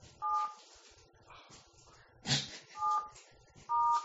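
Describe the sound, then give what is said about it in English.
Telephone keypad tones entering a conference PIN: three separate beeps with pauses between them, plus a brief louder burst of noise between the first and second beep. “please enter your PIN followed by the...”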